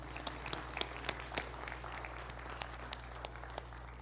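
Applause from a church audience congratulating a man, scattered, fairly faint claps over a steady low hum.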